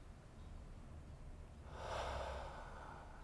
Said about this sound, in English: Deep breath.